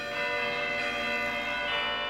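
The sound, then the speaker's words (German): A church bell rings at the town church of San Lorenzo in Maranello, rung in celebration after a Ferrari win. Its sustained metallic overtones hum steadily and fairly quietly, swelling a few times. “Selbst der Pfarrer der Stadtkirche San Lorenzo wird dann den Herrgott einen guten Mann sein lassen und die Glocke der Kirche kurzzeitig zweckentfremden.”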